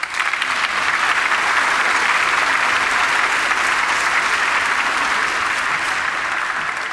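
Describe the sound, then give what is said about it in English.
Audience applause welcoming a guest speaker at Coral Ridge: dense, loud, steady clapping from many hands continues evenly for the whole stretch without a break. “And so please give a warm Coral Ridge welcome to Dr. David Self.”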